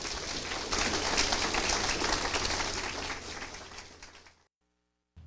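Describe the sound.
An audience applauds to welcome a speaker back to the stage, with dense, steady clapping that tapers off and falls to silence near the end.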